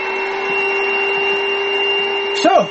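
A kitchen machine grating salad vegetables such as carrots gives a steady, even whirring motor hum throughout, with a brief vocal sound near the end.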